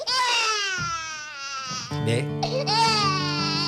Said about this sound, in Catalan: Per la manera com plora ja podeu endevinar que ho té tot bastant a lloc.